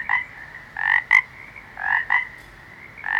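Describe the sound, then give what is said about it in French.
Toads and frogs croaking: several raspy, buzzing calls in irregular bursts, some longer and some short, each standing out clearly from a quiet background with no voices. “Oui, les crapauds et les grenouilles sont vivants. Vivants, vous entendez?”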